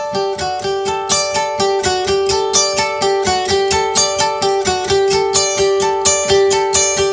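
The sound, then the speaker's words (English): A dry electric guitar part is played straight from the instrument with no effects or delay. Rapid, evenly picked notes repeat in a steady pattern with a bright, ringing tone and a clear attack on each note. The guitar plays alone. “Okay, so this would be what is getting sent out from his guitar before it goes to any delay.”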